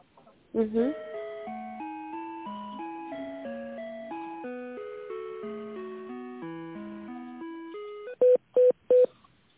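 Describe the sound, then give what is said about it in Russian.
Electronic telephone tones as a call is transferred: a plain, steady melody of stepped beeping notes runs for several seconds, then three short, identical beeps close together end it. “Давайте соединим вас на отдел”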